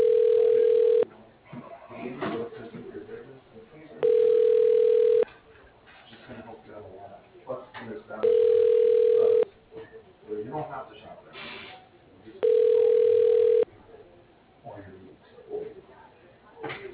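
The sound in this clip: A telephone line tone plays while a call transfers to voicemail: four steady, mid-pitched tone bursts about a second long, repeating at even intervals of roughly four seconds, with a quieter murmur between them.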